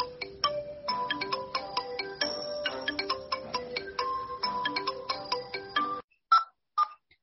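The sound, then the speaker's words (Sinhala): Mobile phone ringtone from an incoming call during a classroom lesson. A bright, melodic electronic tune plays repeatedly, then stops and is followed by a few short, isolated beeps. “Sir, phone එකටද phone එකක් එන්නේ?”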